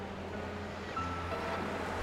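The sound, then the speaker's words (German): Roaring of wild, surging water with wind-blown foam crests, heard as a faint, steady, broad rushing noise with a low rumble underneath and no voices. “Das Rauschen des wild gewordenen Wassers schluckt jeden meiner verzweifelten Laute.”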